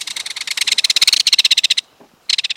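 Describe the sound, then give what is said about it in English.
Belted kingfisher rattling call in a wetland: a loud, rapid, dry series of many clipped notes, a brief pause, then another burst of the same rattle beginning. “When you next walk in a wetland, listen for the rat-a-tat sound of the belted kingfisher.”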